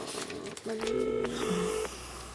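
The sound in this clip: Telephone tones from a call that rings unanswered: a short stretch of steady electronic tones at a couple of overlapping pitches, lasting about a second over faint background noise.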